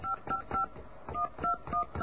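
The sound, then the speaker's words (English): Touch-tone telephone dialing, a quick series of short, bright dual-tone beeps in two bursts separated by a brief pause, fairly faint and with no talk over them. “Oh, I'm sorry, I dialed the wrong number.”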